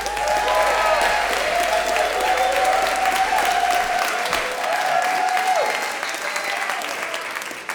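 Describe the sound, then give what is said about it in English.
Audience applause welcoming a storyteller onto the stage at a live storytelling event: dense, steady clapping from a crowd that carries on throughout and eases off slightly at the end. “Put your hands together and welcome our first storyteller, Kevin Gallagher.”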